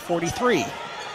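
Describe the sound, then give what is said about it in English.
A basketball on a missed free throw bounces on the rim during a game, a brief knock mixed under a commentator's steady talk. “Second of two, bounces several times, did not go on for Leathers.”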